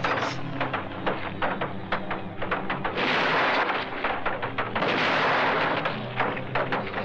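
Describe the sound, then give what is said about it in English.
Gunshots fired at a zombie in a dramatized horror scene ring out as many sharp, loud cracks over a dense, rumbling roar. “But the previous minute ended with him poised on a zombie who kind of looks up at him, and someone's going to get shot in the head.”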